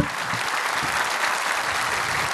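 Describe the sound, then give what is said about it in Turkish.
Audience applause for an orchestra at a concert, a steady, dense wash of many hands clapping that holds at an even level throughout without pause. “alkışlarınız bir de orkestramız için olsun.”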